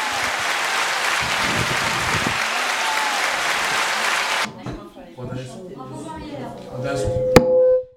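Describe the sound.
Audience applause, loud and even for roughly four and a half seconds, then cutting off abruptly; people talk afterward, with a single sharp knock near the end.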